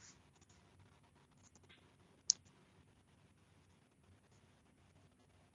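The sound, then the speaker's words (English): Pen scratching on paper as notes are written, faint intermittent strokes and soft scrapes with one sharp click partway through, all very quiet. “Yeah, I'm writing what you're saying down.”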